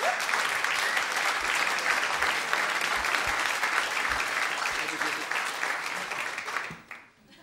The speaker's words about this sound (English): Put your hands together for Mr. Alan Martin, who did the sound for us this evening.